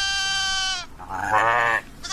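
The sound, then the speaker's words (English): Sheep bleating: a few loud, wavering, nasal bleats in quick succession, heard alone without talk. “What do sheep do? What noise do they make?”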